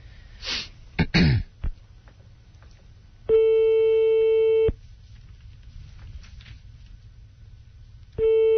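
A telephone busy signal sounds on a redial. Two long, steady, buzzy tones play, the second cut off at the end, after a few short, noisy bursts near the start.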